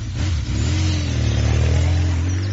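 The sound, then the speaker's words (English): A new motorbike's engine runs with a loud, steady, mid-pitched hum. “You off, then? I can't stay here. It's a nice bike. Is it new?”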